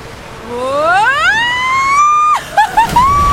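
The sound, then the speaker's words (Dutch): A ride down a slide at a water park: a loud, drawn-out tone rises steadily in pitch and holds, then breaks into a brief burst of noise and a few choppy, wavering tones, with no talking. “Dit was het geluid van een glijbaan bij Aqualibi.”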